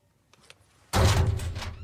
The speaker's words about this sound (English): A door is opened in a small room, revealing a secret passageway.